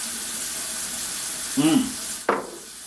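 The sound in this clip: Water running down a sink drain that had been clogged with hair: a steady rushing hiss broken by a couple of brief, louder bursts.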